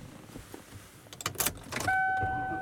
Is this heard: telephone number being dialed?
no